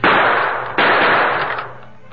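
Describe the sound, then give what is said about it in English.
Two gunshots fired at a heavy iron door lock, each a loud, harsh blast with a long noisy decay, the second coming less than a second after the first. “The lock was a big one of heavy iron. It held firm. The Lone Ranger drew one of his guns. Bullet may smash it.”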